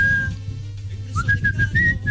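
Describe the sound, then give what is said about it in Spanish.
Someone whistles the Olympic anthem in a clear, high tone: one held note, a brief pause, then a run of short notes stepping upward, over a low steady hum. “¿Cómo silbaste? Sí, la música olímpica. ¿Cómo es? El himno. Silbamos otra vez.”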